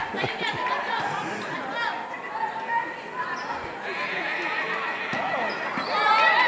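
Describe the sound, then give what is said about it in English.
A loose basketball bounces on the hardwood during a Boston high school basketball final between New Mission and Boston Latin Academy. A few dull thuds sound under steady crowd chatter and murmuring. “Collins lost control of her dribble. And it's going to go right back to New Mission. Nobody wants this basketball.”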